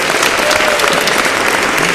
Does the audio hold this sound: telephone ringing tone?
no